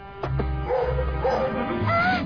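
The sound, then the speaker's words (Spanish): Dog barks and yips, a few sharp calls over a steady low hum, with whimpering tones in between. “Otro perro, lo que nos faltaba.”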